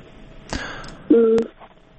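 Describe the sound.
A brief telephone ringing tone as a listener's call is put through: a short, loud, steady two-note beep lasting about a third of a second, preceded by a faint click and low background noise.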